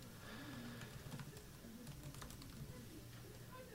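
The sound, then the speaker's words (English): Typing on a computer keyboard: faint, irregular key clicks tapping steadily over a low background hum. “let me just type this into the computer”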